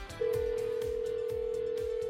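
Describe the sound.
A steady telephone dial tone sounds while a call is being placed, starting after a brief moment and holding unbroken to the end over a regular low thumping beat.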